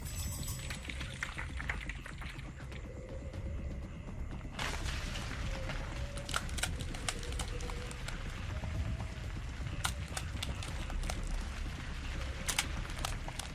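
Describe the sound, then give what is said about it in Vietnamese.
Rocks fall down a cliff at night, giving a quiet, continuous gritty rush, like pouring rubble, with scattered sharp clicks and small impacts that become denser after the first few seconds. “Tiếng đá rơi xuống vách núi trong đêm tối.”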